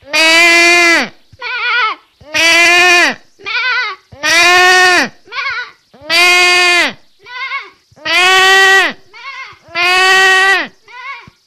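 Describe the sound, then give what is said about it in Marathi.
A human voice imitating a sheep bleating: six loud, drawn-out, wavering bleats, each followed by a shorter, softer bleat, in a steady repeating rhythm. “मेंढीचा आवाज काढून दाखवणार आहे.”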